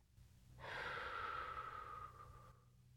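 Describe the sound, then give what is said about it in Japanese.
A deep, slow breath, one long soft airy rush lasting about two seconds, is part of calm guided breathing in and out. It swells gently, then fades, with quiet on either side. “息をすーっと吸って、ふーっと吐いて、”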